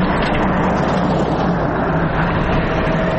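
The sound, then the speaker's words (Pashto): An aid-carrying vehicle drives a rough, potholed mountain road in Helmand's Baghran district. Its engine and rattling road noise form a steady, loud, unbroken rumble with no voices. “دا د باغران ولسوالۍ ته پر غزیدلې کند او کفر سړک د روان هغه کومک لرونکي بایپور موټر ژغ دی چې اوس مهال مرکز لشکرګاه ښار ته د باغران ولسوالۍ څخه راورسېدلی.”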